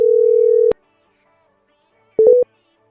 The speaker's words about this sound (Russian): Набираю с Вайбера.